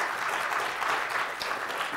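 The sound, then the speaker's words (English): Steady audience applause for a panel of speakers at a faith and social media discussion: a dense, even wash of many hands clapping at moderate level for about two seconds, with no voices. “Today our panelists, I want you guys to give them another round of applause.”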